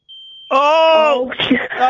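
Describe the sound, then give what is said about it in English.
A smoke alarm's low-battery chirp, heard as a thin, steady high beep that gives way to a louder buzzy tone, with people talking over the end. “you really should change the battery in that smoke alarm”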